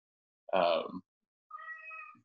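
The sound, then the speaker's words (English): A pet cat meows twice: first a loud, full, slightly descending cry, then after a short pause a thinner, quieter, sustained meow trailing off at the end. “And that is Batman, our cat.”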